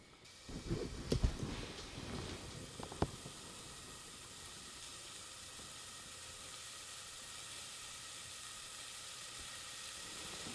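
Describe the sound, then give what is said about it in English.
Soft, steady sizzle of onions sautéing in a pot for a one-pot dish of lentils, black beans and rice, with a few brief knocks near the start before an even, faint hiss. “All right, we're going to cook this for a little bit. We're just going to sort of saute it for just a couple minutes.”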